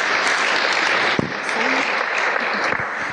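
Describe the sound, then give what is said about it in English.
Applause from an audience as a charity's chairman is welcomed to speak at a community event: dense, steady clapping that holds at an even level throughout, with a brief voice near the middle. “Yeah, give him a hand.”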